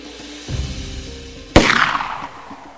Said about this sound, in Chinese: 一声枪响